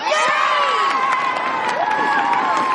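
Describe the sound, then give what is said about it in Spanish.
Slytherin students in the Harry Potter film (Philosopher's Stone, 2001) cheer loudly: a dense, continuous crowd of young voices shouting and whooping without a break. “Snape aplaude y Malfoy grita entusiasmado.”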